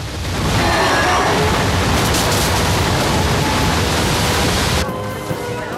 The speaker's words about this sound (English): Behind them, the water is smashing through the town like a giant hammer.